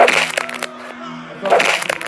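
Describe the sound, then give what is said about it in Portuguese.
A sound effect of a bone breaking against a wall gives two harsh crunching, cracking bursts, one at the start and one after a quieter pause in the middle. Both are loud and gritty with a splintering texture. “Não, é o som do seu osso sendo quebrado por um muro.”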